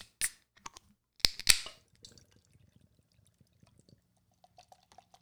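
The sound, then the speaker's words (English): A can of rhubarb beer is cracked open with a few sharp, bright bursts, then a faint, soft trickle and fizz follows as it is poured, with no voices. “So why don't we crack this beer open and see what's what?”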